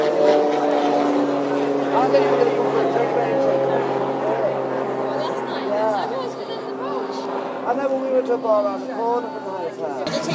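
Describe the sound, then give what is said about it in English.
A propeller airplane whizzes low overhead past a dock, its engine drone sustained throughout under background chatter of voices. “That's a plane going overhead, yes. Near that, just whizzing over the dock.”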